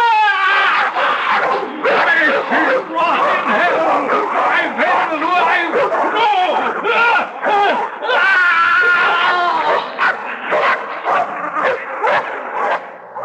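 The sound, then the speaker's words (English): Dogs snarling, yelping and panting in a castle: a continuous, frantic tangle of growls, barks and whimpering yelps lasting about thirteen seconds. “I heard dogs snarling and panting.”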